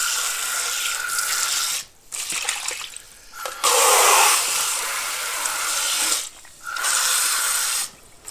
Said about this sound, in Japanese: 今焼きそばの容器を洗って捨てるところ